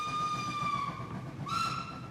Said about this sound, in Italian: Il treno sfreccia nel buio della Galleria del San Gottardo.